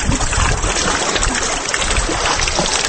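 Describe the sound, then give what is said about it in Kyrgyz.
Steady loud rushing of water along an irrigation canal where four water wheels turn in a row, a dense continuous churning flow with no pauses. “Мына ушул каналдын тегирмеч маалле бөлүгүндө 4 чарк-палек катар жайгашкан.”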